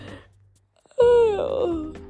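A person yawns, breaking a near-silence with a loud, drawn-out voiced moan that slides downward in pitch for about a second before trailing off.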